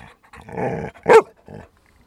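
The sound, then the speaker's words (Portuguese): A therapy dog from an animal-assisted therapy association vocalises on cue in a few short growly bursts, with the loudest and shortest burst in the middle. “É um dos 4 cães terapeutas da associação Ladra Comigo.”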